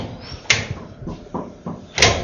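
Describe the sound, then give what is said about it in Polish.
Small door on a dog-washing tub being opened: a few knocks and rattles, with two sharper bangs standing out among softer clunks in an uneven rhythm. “Tu jest wanna, do której wprowadzamy czworonoga. Otwieramy mu drzwiczki.”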